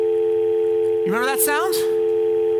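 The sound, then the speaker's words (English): Steady telephone dial tone, a continuous, unchanging hum that runs the whole way through while a voice speaks briefly over the middle of it. “That's a dial tone”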